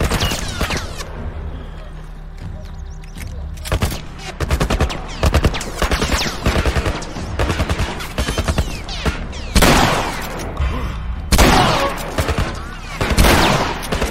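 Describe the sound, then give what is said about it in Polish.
Rapid gunfire from a video game as an enemy shoots at the player: many sharp, dense bursts of shots follow one another, with several louder volleys toward the end. “Ty, on do mnie strzela.”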